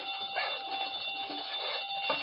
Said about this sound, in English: Safe connected with burglar alarm.